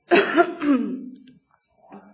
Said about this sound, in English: the cough is for when I run out of breath. It's like, I don't know why. It's some sort of nervous tic.